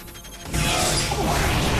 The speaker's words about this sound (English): aims with the anti-replicator gun. The blast has no effect.